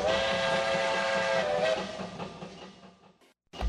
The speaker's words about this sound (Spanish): El tren sigue su marcha.